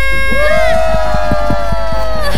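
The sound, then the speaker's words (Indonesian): A live audience at a busy show cheers and screams loudly and continuously, with a long high-pitched yell rising above the crowd noise and sharp bursts scattered throughout. “Tolong dong JS mic-nya satu dihidupin buat suara-suara Besti supaya suara-suara Besti masuk ya. Biar Besti-besti yang ada di rumah tahu kalau di sini tuh rame banget. Coba tes suara-suaranya mana.”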